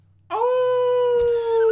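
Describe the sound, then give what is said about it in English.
A human voice imitates a werewolf howl: one loud, sustained tonal howl that rises briefly at the start, then holds a steady pitch for over a second, with a short noisy burst near the end. “Mated Werewolves, Charles Cornick and Anna Latham answer a call of distress. It sounds a little like this.”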